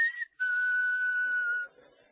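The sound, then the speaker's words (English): A person whistles, imitating a pet bird's whistle: a short high note, a brief break, then one longer, steady, slightly lower note held for over a second before it stops. “That bird at my house has whistled like that so much, he's got me doing it.”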